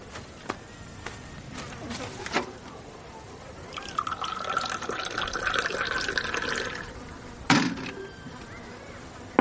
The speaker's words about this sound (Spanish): Anda, sírveme un té.